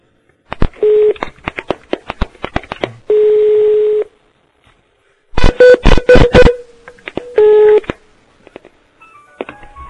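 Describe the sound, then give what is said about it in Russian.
Telephone line sounds while a call is being transferred: sharp keypad clicks and tone pulses, a few longer steady beeps, and a quick run of rapid pulsed tones, with no voices. “А сейчас соединю с Олегом, подождите.”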